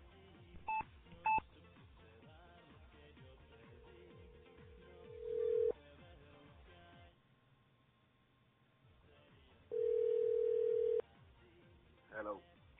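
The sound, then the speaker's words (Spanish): A telephone is dialed for a call: two short keypad beeps, then a long tone that swells louder, a quiet pause, a second steady long tone and a brief final burst, all over soft background music. “vamos a llamar a José Carlos para ver en la llamada del día, para ver si nos comunicamos con él”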